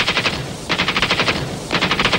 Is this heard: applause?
no